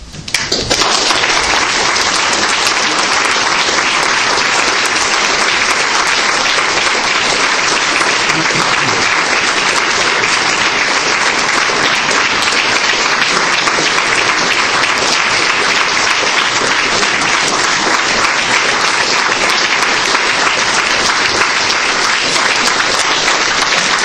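Audience applause after a lecture in Cambridge, a dense, steady clapping that holds at full loudness for the whole stretch without talk.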